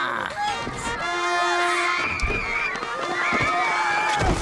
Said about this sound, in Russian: Его сбивает толпа посетителей, которые мчатся на фестиваль. Ох уж этот фестиваль удовольствий!